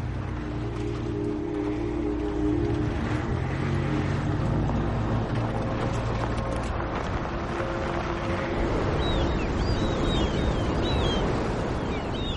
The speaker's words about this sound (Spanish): Al poco el vehículo circula por un paraje entre las montañas.